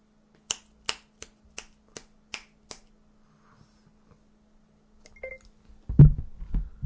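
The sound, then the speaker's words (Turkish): A telephone being dialed to place a call: seven sharp, evenly spaced clicks, then a pause, brief faint tones and a louder burst of low noise at the end. “Şimdi arıyorum ve finali veriyorum abi. Arıyorum ve finali veriyorum.”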